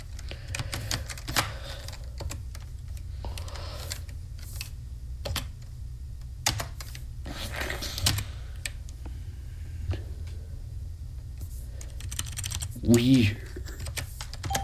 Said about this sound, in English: I'm gonna have to type the path manually anyway.